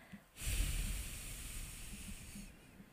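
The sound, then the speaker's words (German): A deep breath through the nose: one long, smooth, airy hiss that holds steady for about two seconds, heard alone. “atme ganz tief ein durch die Nase. Fühle, wie sich dein Brustraum hebt und dein Bauch, fülle ihn ganz voll und dann atme doppelt so lange wieder aus.”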